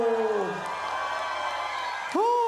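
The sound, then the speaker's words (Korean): An audience cheers and claps at a live show, a steady roar of crowd noise between a loud shouting voice at the start and another near the end. “자 큰 박수 함성 다시 한번 해주세요”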